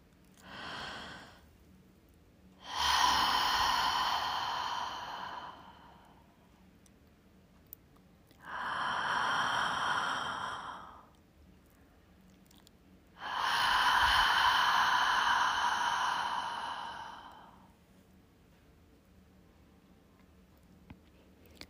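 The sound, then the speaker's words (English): Deep breaths are drawn in and let out through the mouth during an outdoor walking meditation. There are a few long, loud, rushing breaths, each a broad airy hiss, separated by quiet pauses. “Take a big, deep breath in through your mouth, then out through your mouth.”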